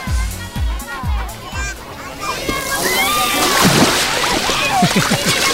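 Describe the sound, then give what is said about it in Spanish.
Sea water splashing and sloshing, stirred by hand at a crowded beach on a hot August day. Irregular splashes build into a fuller churning wash, with voices in the background. “tengo aquí a un invitado que ha movido el agua así para que suene mucho más”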